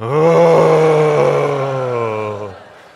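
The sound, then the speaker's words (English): A group of people give a loud, drawn-out cleansing groan together, a deep sustained voiced tone lasting about two and a half seconds before fading out. “On the count of three, we're just going to give a good, whoa, cleansing groan, because that's what Solomon”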